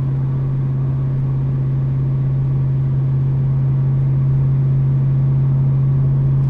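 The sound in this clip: A car engine holds steady at 2,000 rpm with the windows up, making a constant low droning hum that stays level in pitch and loudness throughout, with no voices.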